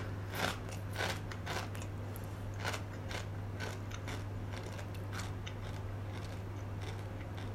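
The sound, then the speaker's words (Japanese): Crunchy bites into dry, uncooked curry-flavoured instant chicken ramen, heard as many crisp, crackling snaps in quick succession over a low, steady hum. “これをそのままかじるってことねじゃ食べますいただきます”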